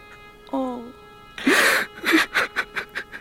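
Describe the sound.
A man cries and wails, starting with a short whimpering moan and then breaking into loud sobbing with a series of heaving, gasping bursts that gradually weaken.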